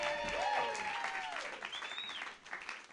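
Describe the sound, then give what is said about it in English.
Fairly faint audience applause for a performer opening a stand-up comedy set, a spread of many clapping hands lasting a few seconds, with a voice calling out over the clapping. “Give it up for me. Yay!”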